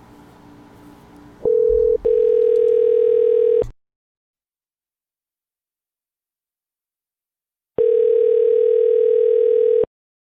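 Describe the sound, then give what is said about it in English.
Ringback tone of an outgoing phone call returning a missed call: two long, steady electronic tones of about two seconds each, separated by a silent gap and preceded by brief line noise. “Let's give them a call back.”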